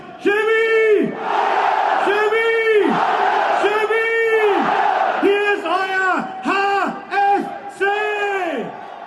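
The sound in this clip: Crowd cheering in unison to welcome a football team just promoted to the third division and cup winners: a run of loud, drawn-out shouts with pauses between them, then shorter, quicker calls toward the end.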